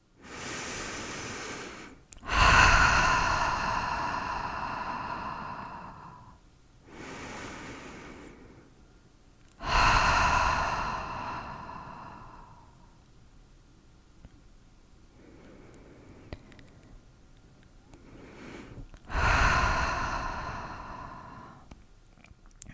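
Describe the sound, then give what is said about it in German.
A few strong, deep breaths, loud airy inhales and exhales separated by quieter pauses, heard alone without talk. “Spür auch hier nach, wie es dir jetzt geht und nimm noch mal ein paar kräftige Atemzüge.”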